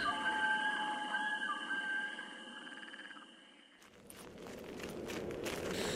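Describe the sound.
Footsteps of people walking on a mountain path in an audio drama, a steady, textured patter of steps that grows clearer toward the end, with croaking frogs and a thin chirping chorus over the first half.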